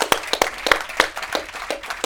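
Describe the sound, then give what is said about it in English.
Audience applause after a talk: scattered, irregular individual claps from a modest crowd, fairly quiet, with no voices over them. “thank you for the applause.”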